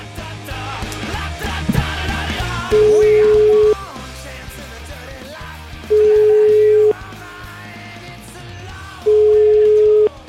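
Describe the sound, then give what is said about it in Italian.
Telephone ringing tone heard while a call is placed from a radio show: three long, even beeps at a steady mid pitch, evenly spaced, over a busy low background. “Umberto Avigliano Maratea, chiamiamo, ti prego, chiamiamo. Però devi stare calmo, chiamo.”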